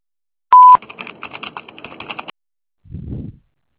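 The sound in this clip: A short, loud telephone beep sounds before a recorded voice message on a collection call. A rapid run of light clicking taps follows, then a brief, low muffled thump.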